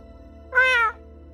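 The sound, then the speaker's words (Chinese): A white cat gives one short, clear meow, bright and tonal, standing out over a faint low hum. “吴恙喵了一声。”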